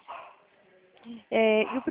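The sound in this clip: A pet dog barks during a phone call at home, one sharp, loud harmonic bark that follows a stretch of speech.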